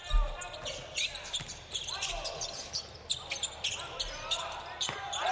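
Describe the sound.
Euroleague basketball game action: repeated ball bounces and squeaking sneakers on the court mix with voices and crowd noise at a moderate level.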